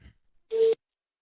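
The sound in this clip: A single brief, steady ringback tone sounds on a phone call placed to a wife's phone. It is moderately loud and heard alone, with near silence around it.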